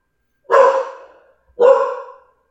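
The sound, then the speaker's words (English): A dog barking twice, two loud, clipped woofs about a second apart with silence between them. “I guess your dog disagree.”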